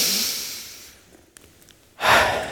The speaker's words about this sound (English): I want you all just to breathe in through your nose, out through your mouth. Do it one more time.